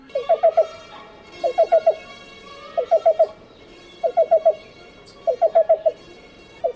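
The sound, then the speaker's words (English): Black-billed cuckoo call: quick, hollow mid-pitched notes in tight clusters of about four, repeated at even intervals five times, with a sixth cluster starting at the end. “Here's the sound of the black-billed cuckoo.”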